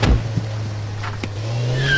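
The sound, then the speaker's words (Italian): Engine of a Porsche Carrera S sports car driving, a steady low hum that holds for about two seconds and climbs slightly in pitch near the end. “Porsche Carrera S, tac.”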